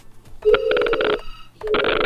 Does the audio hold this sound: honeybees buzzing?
no